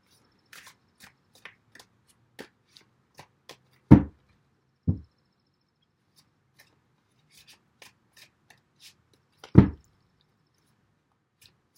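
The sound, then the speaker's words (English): Tarot cards are shuffled and drawn, making light, scattered snaps and flicks. Three louder slaps stand out as cards land, and the quiet stretches between them are otherwise still. “Let me get some additional cards on this Ten of Swords.”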